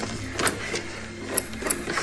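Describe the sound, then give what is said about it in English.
Wires on a machine are rearranged with mechanical clatter: a few sharp clicks and rattles over a continuous dense mechanical whir. “Alan rearranges the machine's wires.”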